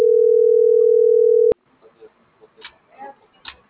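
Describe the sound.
A telephone call ringing unanswered: one steady ring tone holds for about a second and a half, then cuts off abruptly, followed by faint, low voices.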